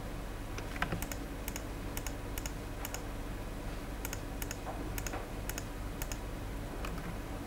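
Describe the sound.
Typing on a computer keyboard to name a new folder: many light, irregular key clicks over a steady low hiss, with no talk.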